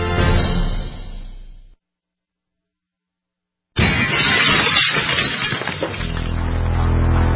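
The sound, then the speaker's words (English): Glass smashing in a home break-in: after a brief silence, a loud crash of shattering glass bursts out, followed by rattling, tinkling shards and debris. “In the U.S., one in every 50 homes will have a break-in this year. Burglars call it smash and grab.”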